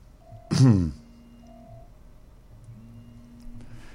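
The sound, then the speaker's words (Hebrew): Faint steady electronic tones from a phone signalling an incoming call. They come as a few separate level beeps at two pitches, with a short loud burst of noise near the start. “רק רגע, יש לי פה שיחה שאני לא יודע איך לענות אותה. יפה, עניתי.”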